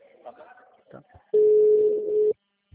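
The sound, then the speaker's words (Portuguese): A telephone ringing tone plays while an outgoing call is placed: one loud, steady, single-pitched ring lasting about a second, preceded by brief talk and followed by quiet. “Ligando primeiro antes de mandar o WhatsApp, que eu tô só com o número.”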